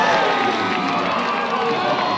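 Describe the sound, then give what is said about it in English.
A baseball crowd in Fayetteville cheers during the second inning, a continuous roar of many voices holding at a fairly steady level throughout. “This crowd in Fayetteville pumped up about the start that Dombrowski has in the second inning.”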